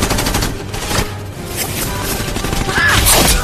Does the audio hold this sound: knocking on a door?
no

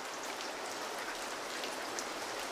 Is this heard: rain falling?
yes

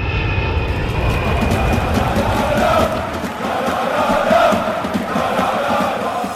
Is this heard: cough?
no

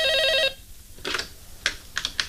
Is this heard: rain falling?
no

